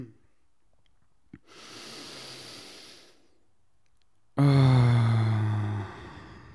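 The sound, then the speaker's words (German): A single deep breath: a long, airy inhale lasting over a second, a short pause, then a loud, voiced exhale like a heavy sigh that fades out gradually. “Lass uns erstmal einen tiefen Atemzug nehmen.”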